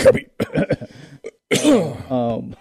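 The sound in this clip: Throat clearing: a harsh, rough burst of about half a second ending in a short voiced tail, preceded by a few brief bits of talk.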